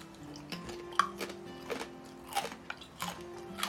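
Someone eats a small salted snack from a little pack, making many irregular crisp crunches and bites as they chew.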